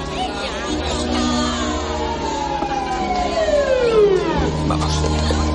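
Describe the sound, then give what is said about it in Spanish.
A police patrol car's siren arrives in a Chinatown street: a wailing tone sweeps steadily downward in pitch, sounding continuously through a dense, loud mix of other sound. “Padre e hijo huyen cuando llega el coche patrulla.”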